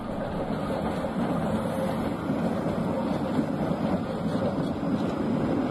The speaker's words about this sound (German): Neben den Tatras gibt es noch einige modernisierte Konstaltriebwagen als reiner Hochflurwagen, so wie hier der Typ Rodirus Alpha 105N.